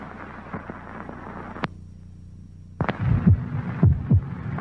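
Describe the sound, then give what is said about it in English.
A human heart beating: low, muffled thumps that grow heavier in the second half, coming in a few paired pulses after a quieter, rustling start broken by one sharp click. “This is the sound of a human heart.”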